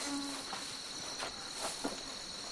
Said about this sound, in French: Arrête les sales moustiques, mes sabords.